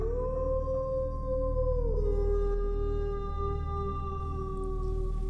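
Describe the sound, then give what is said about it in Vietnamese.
A dog howling in a neighbour's yard: one long, sustained, eerie tonal howl with rich harmonics, its pitch dipping lower partway through and then holding steady to the end, without any barks. “Phía bên kia nhà hàng xóm có một con chó đang ngủ ngoài sân. Nghe được âm thanh ấy, nó liền chồm dậy, ngẩng cao đầu sủa liên tục, lâu lâu lại tru lên nghe đến lạnh người.”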